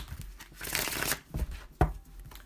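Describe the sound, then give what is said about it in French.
Oracle cards being shuffled and drawn, a few papery rustling bursts with one sharp snap of cards near the end. “C'est des oracles euh, faits par une fille qui tire au tarot, baccarat sont vraiment nice. J'ai le goût d'en piger une juste pour donner le ton.”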